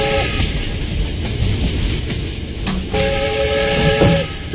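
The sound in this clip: A passenger train travelling from Shanghai to Shaanxi, heard from inside a compartment, gives a steady loud rumble and rattling clatter with a brief tonal whistle.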